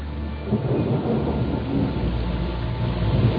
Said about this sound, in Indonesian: Mengamati air hujan yang perlahan mulai mereda.